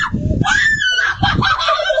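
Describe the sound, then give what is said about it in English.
A person shrieks inside a car, with shrill, wavering, high-pitched cries that come in several bursts over low rumbling noise. “Shrieking. That's actually the car ride last night home”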